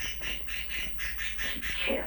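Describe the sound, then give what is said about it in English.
Bird calling in a quick, regular series of many bright, high chirping notes. The calls are fairly loud over a low steady hum. “That's some bird there.”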